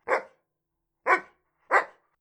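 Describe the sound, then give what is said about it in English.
A dog barks three times, short sharp barks spaced roughly a second apart, loud and alone with silence between them. “a dog!”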